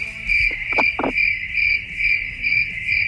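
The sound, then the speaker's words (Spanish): A cricket chirps in a steady, high-pitched trill of rapid repeated pulses that continues alone throughout, with a few faint low knocks early on. “Yo creo que es un grillo”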